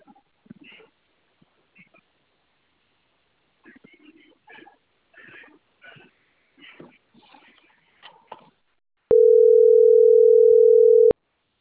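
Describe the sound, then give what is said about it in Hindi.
A telephone dial tone after a call is hung up: one steady, loud, unbroken mid-pitched tone lasting about two seconds, following a stretch of people talking. “I'll hang up the call now.”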